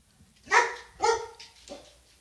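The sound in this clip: A female dog barking three times: two loud, fairly high barks about half a second apart, then a softer, shorter third bark, with no talk.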